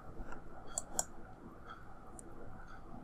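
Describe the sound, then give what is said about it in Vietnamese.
A few faint, sharp computer mouse clicks, made while clicking a link, sit over a low steady hiss with no talking. “Chúng ta có thể bấm vào cái link này để chúng ta xem cái những cái lời dịch đó.”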